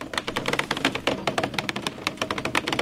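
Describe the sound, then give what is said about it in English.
Rapid, irregular clicking and ticking as construction workers unspool several hundred feet of fiber optic cable in the woods, a busy run of sharp taps with no voices. “That's the sound of construction workers unspooling several hundred feet of fiber optic cable.”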